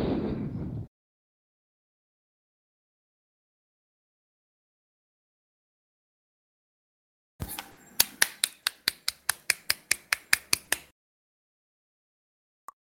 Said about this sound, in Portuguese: tenente batendo palmas sozinho.